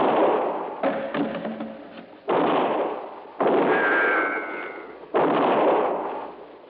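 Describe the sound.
Gunshots in an old radio crime drama: a few heavy booming reports, each with a sharp onset and a long fading tail, separated by short pauses, with no talk.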